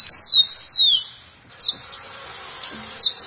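A rufous-collared sparrow calls with two high, clear whistles that slur downward, then a pause and two short, high notes spaced apart. Each note is bright and thin and stands alone against a quiet background.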